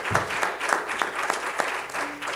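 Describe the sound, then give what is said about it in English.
A church audience applauding as an act of praise: many hands clap together in a brisk, fairly regular beat, loud and continuous, with a few sharper accents. “Let's give the Lord a hand clap of praise.”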